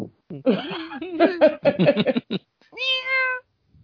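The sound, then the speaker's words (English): A large, heavy cat weighing over twenty pounds meows. Choppy, chattering vocal sounds come first, then a drawn-out, rising meow near the end. “That is a big ass cat.”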